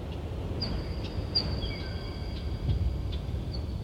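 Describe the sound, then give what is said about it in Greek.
Birds call deep inside a large North Atlantic sea cave: a few faint, thin, high whistles sound over a steady rushing wash of noise. “Εκεί μέσα είναι πουλιά τα οποία ακούμε στο βάθος, αλλά και βράχοι οι οποίοι πέφτουνε.”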